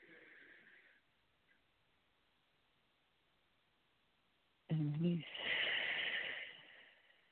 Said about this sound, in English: be still and know that I am God. Let's breathe.